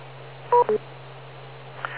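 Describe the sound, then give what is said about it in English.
Two short electronic telephone beeps on a radio call-in line, the first slightly longer, following each other quickly over a steady low hum. “And I just picked up too fast, so wait for the beep.”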